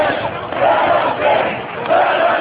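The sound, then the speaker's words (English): Protest crowd chanting "let us in" inside a state Capitol during a fight over collective bargaining: loud, massed voices rise and fall in repeated swells, with a muffled, dull tone. “And so now the crowd is chanting, let us in, let us in.”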